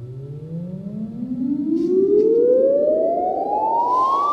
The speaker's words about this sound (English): A chirp is a tone that swoops from very low frequencies to very high.